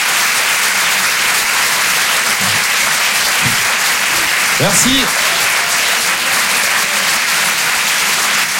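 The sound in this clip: Audience applause after a performer finishes a set, steady, full clapping that stays loud throughout, with a brief spoken thanks heard over it.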